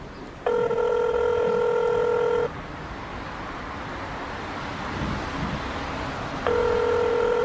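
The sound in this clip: A telephone ringback tone sounds as a call is placed: a steady electronic tone lasts about two seconds, then a pause of roughly four seconds filled with background hiss, then the tone starts again.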